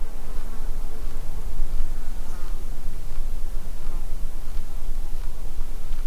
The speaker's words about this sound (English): Not absolute silence, Wilkes says, but a way toward it. Things like insects will oblige and fly by your mics.